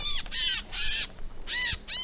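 A small slate-gray migrating bird caught in a net gives a series of harsh, raspy calls. The loud calls repeat in quick succession with brief pauses between them.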